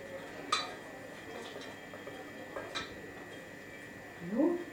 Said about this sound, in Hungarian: És elkeverem benne. I stir it.